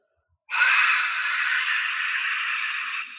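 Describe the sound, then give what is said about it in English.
A forceful, open-mouthed yoga lion's breath exhale: one long breathy hiss that starts abruptly, holds for over two seconds while easing slightly, then stops, with no other sound. “All you're doing is you're exhaling lion's breath”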